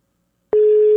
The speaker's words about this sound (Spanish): Ahí le estoy marcando a Corina. No me contesta Corina.